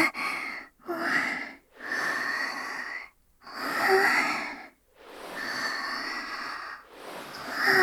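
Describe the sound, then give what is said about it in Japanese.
Deep breathing from someone calming down after fainting, throat slightly hoarse: a series of long, loud, breathy breaths with a faint wheezy, voiced edge, separated by short pauses. “落ち着きます。深呼吸。”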